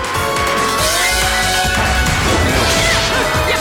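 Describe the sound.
Video game attacks land on an enemy's arms during witch time, producing a dense, continuous barrage of heavy impact thuds and crashing smashes layered over one another.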